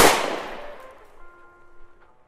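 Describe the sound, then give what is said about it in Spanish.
A single sharp gunshot bang is fired during an escape toward a van, a loud crack at the start that decays slowly over about two seconds with a faint ringing tone left behind. “Están disparando. Rápido a la camioneta.”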